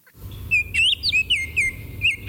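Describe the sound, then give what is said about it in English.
Song of a male Baltimore Oriole: a series of clear, loud, whistled notes in short slurred phrases, some rising and some falling, heard alone without voices. “While it might be a little difficult to identify a female Baltimore Oriole, you will never mistake a male Baltimore Oriole in full adult plumage.”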